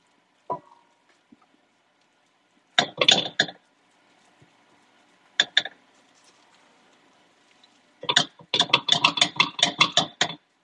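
Utensils clink and scrape against a pan as cornbread batter is spread and pressed over sausage, with sharp metallic taps in a few scattered clusters and a denser run of rapid clinks at the end.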